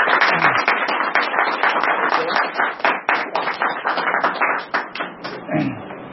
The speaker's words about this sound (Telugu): ఒకసారి అందరికి చప్పట్లు కొట్టాలి క్లాస్ విన్న వాళ్ళకి.